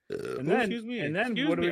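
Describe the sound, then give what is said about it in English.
A long, loud voiced burp rumbles out alone, its pitch wavering up and down over nearly two seconds. “What happened? I burped.”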